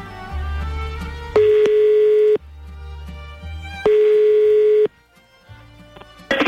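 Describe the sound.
Telephone tones sound loudly while a call is being dialed: two long steady beeps, each lasting about a second, alternate with a lower droning tone.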